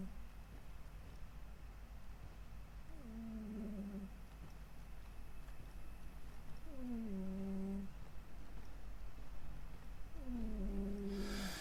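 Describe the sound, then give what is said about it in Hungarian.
A cat in a zombie-themed video game makes three separate, drawn-out, whiny calls that slide downward in pitch, spaced evenly over a steady low background hum. “Halljátok, hogy durmol a cica?”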